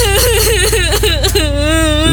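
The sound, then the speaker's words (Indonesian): A person cries loudly, a high wavering sob that breaks into short wailing bursts and then settles into a drawn-out moaning tone. “Loh, kok makin kenceng sih nangisnya?”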